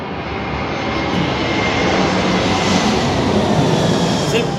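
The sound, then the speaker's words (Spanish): An airplane passing overhead, a loud, broad engine roar that swells slightly and holds steady throughout. “es el primer avión, bueno, es el segundo avión que pasa”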